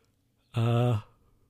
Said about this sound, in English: Sorry, slight yawn there.